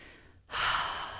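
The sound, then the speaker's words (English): A single deep breath taken alone, a breathy rush that swells in after a short quiet moment and holds steady to the end. “Deep breath there.”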